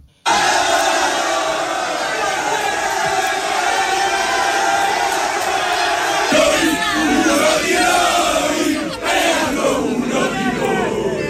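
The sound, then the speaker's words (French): More than a hundred AS Roma football supporters chant and cheer at the airport to welcome newly arrived players, a loud, continuous crowd roar of massed voices lasting about eleven seconds. “Plus d'une centaine de supporters de la Roma étaient présents à l'aéroport pour les accueillir.”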